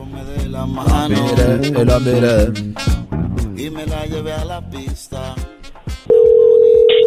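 A telephone line gives a steady, loud, unbroken tone while a number is being dialed. The tone enters abruptly near the end and holds alone after a busy stretch of other sound.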